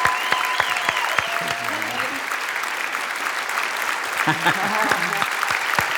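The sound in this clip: Church audience at Cathedral of Faith applauding to welcome a guest: dense, steady clapping that holds for about six seconds, with brief voices calling out beneath it.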